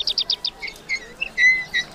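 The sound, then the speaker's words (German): Birds twitter in the sunshine: a quick run of bright, high chirps, then a few longer, clear whistled notes, with no voices. “Die Vögel zwitschern in der Sonne.”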